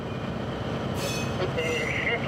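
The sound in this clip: A freight train is pushed out by a shunting locomotive, making a continuous low rumble of rolling rail wagons. Metallic wheel squeals rise partway through.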